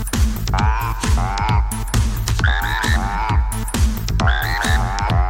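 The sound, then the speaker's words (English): Many human voices imitate frog calls together in a loud chorus, overlapping croaks and throaty pulses with falling pitch sweeps that repeat in a dense, rhythmic mass. “you must have memorized all of your frog calls”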